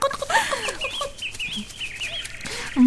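A hen clucks in a string of short, bright clucks, some rising and falling in pitch, with a louder cluck at the very end.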